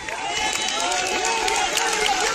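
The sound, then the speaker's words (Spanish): Applause at a church healing service, a steady rush of many clapping hands with voices calling out over it, sustained and fairly loud throughout. “Salte, vamos, un aplauso al Señor.”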